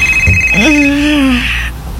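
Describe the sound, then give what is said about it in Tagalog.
A cellphone ringing gives a steady high tone that carries on under a sudden spoken exclamation, then cuts off. “Ay! Tingog pa na ko cellphone. Ay, bahala ka na cellphone na ka.”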